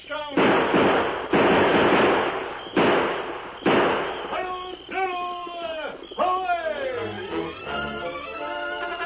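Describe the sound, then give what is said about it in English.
Gunfire in an old Western drama: four loud, sharp shots ring out across the first four seconds, followed by shouting voices. “Open fire.”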